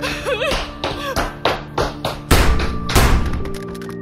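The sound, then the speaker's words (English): Running footsteps of someone fleeing from a killer in a dramatized crime scene: a quick, uneven series of heavy thuds and sharp taps, fairly loud, with no clear speech. “if you listen closely, you can hear Leanne running away from the killer right before she's shot.”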